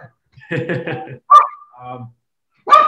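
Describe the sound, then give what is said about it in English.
A guard dog barks in two sharp, loud bursts, separated by stretches of a person talking. “And sorry, that's my dog.”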